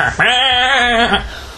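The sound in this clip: A person imitates a sheep bleating: one sustained, nasal 'baa' about a second long, with a shaky, quavering tone that fades at the end.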